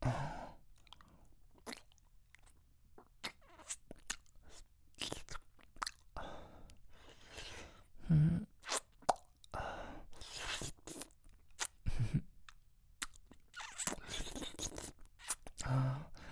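Wet licking and smacking mouth sounds form a long, irregular series of many soft clicks and slurps. Some bursts are louder than others, and no voice is heard.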